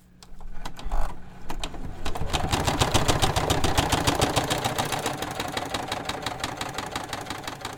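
Sewing machine stitching at a desk in a basement apartment. After a few softer knocks, rapid, steady mechanical pulses run on and on, fairly loud and without a break, with no voices.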